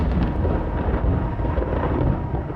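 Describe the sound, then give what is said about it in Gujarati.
A powerful thunderstorm sweeps over desert salt pans as a loud, dense, unbroken roar with a deep low rumble that stays steady throughout. “A powerful storm tears across the region,”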